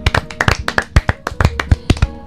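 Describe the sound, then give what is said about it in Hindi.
Children clapping their hands in a burst of many quick, uneven claps, crisp and moderately loud, with no talking over them. “वाह वाह, तो ताली बजा दीजिए बच्चों।”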